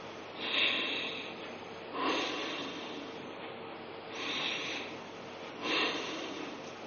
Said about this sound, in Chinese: 就是嘴巴自然关闭，牙齿打开，舌头悬起，用鼻子进行强力的吸入和强力的吐出。我做一遍大家看。